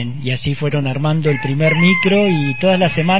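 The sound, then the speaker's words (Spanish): A rooster crows in a rural farm area, its harmonic calls repeating under a person speaking in Spanish throughout. “¿Hay un gallo ahí? Hay un gallo, exactamente.”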